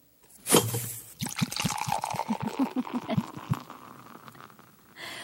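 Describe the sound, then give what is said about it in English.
Beer is poured and then drunk: a fizzing splash gives way to a long run of quick, rhythmic gulping sounds that fade into softer liquid noises. “What is that? Have a drink? That was a beer.”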